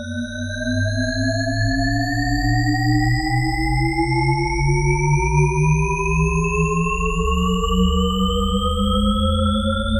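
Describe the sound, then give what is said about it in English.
Shepard tone auditory illusion from a film score: stacked, steady tones glide upward without pause and seem to climb forever without resolving, over a loud low droning bed that holds throughout. “This is the sonic illusion known as the Shepard tone, named after cognitive scientist Roger Shepard.”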